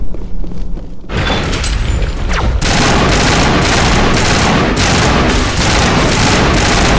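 Weapon fire in a video game, near a Geth transmitter: after a slightly quieter first second, loud, dense, sustained volleys of rapid shots pound on without a break, with heavy booming impacts.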